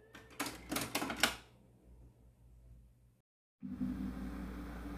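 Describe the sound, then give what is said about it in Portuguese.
Buttons on a cassette tape deck being pressed, giving a quick, faint cluster of mechanical clacks, then low hiss, a brief silence and steady tape noise resuming. “Deixa eu apertar o botão do deck.”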